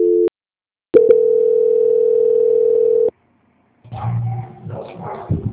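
A telephone tone plays during a call transfer: a short steady beep, then a long, loud, continuous tone lasting about two seconds. A softer, muffled noise follows after a pause.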